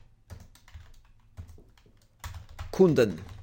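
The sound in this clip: Typing on a computer keyboard produces a light run of quick, soft key clicks in an uneven rhythm, and a person starts talking over the clicks near the end.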